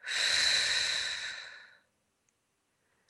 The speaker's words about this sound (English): Close your eyes. Begin to slowly breathe in and out.